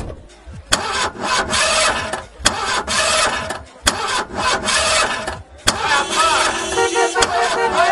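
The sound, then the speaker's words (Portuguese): A 300-horsepower sports car engine starting and running, a loud, gritty roar broken by several brief gaps, with a shift to a higher, brighter tone near the end. “300 cavalos. Vai de 0 a 100 em menos de 6 segundos. Ai, eu não acredito, você tem uma igualzinha do Magnum. Ai, meu Deus, eu sempre quis andar numa máquina dessas.”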